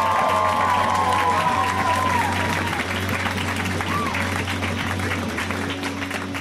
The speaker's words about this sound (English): Let's hear it for right now for Lisa Best. Guys, give it up for Lisa.